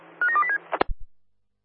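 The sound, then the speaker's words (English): Telephone keypad tones as a number is dialed: a quick run of short, steady beeping tones, then a sharp click and a low thump. “Roger that base, dialing now.”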